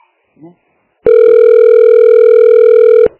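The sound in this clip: A telephone rings with a single continuous electronic tone at a steady pitch, loud and even for about two seconds. It follows a brief faint voice.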